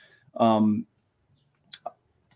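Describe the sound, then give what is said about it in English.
A couple of short, faint clicks, made while clicking into an open editor to edit a title, come after a brief bit of talk. “So now I'm going to click in this open editor and edit the title inside of here.”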